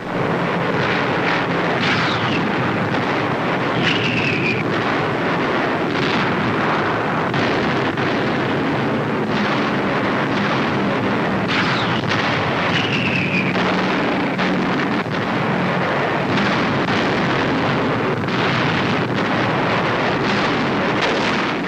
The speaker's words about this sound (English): The heaviest Allied barrage of the war precedes a dawn attack.